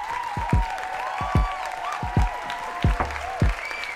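Studio audience applause plays as a steady wash of clapping. A recurring pattern of falling, swooping tones sounds over it, repeating at a regular pace throughout.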